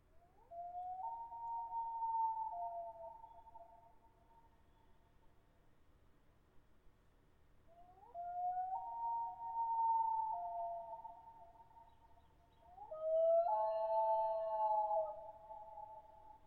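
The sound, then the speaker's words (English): Loon calls ring out over the Boundary Waters: three long, wavering wails, each swelling up and holding a clear, mournful pitch before fading. The third call is the strongest and carries brighter overtones, with quiet gaps between the calls. “I hope you guys enjoyed your coffee and loon call moment as much as I did.”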